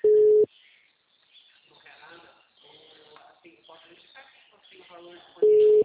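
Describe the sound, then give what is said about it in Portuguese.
A phone line gives a failed-call tone: a loud, steady single-pitch beep at the start and another at the end. Faint talk is heard between the two beeps. “Não está completando a ligação. Não completa, fica só. Bi, bi.”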